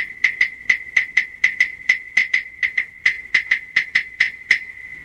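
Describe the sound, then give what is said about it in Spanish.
Claves struck in a lively rhythm, many crisp, high wooden clicks with a short ringing tone, in an uneven pattern of quick pairs and single hits. “Así suenan las claves.”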